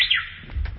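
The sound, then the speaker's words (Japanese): A Japanese bush warbler (uguisu) gives a brief whistled note that slides downward, then fades quickly into faint low background noise. “春なのでちょっとウグイスの鳴き声からね。”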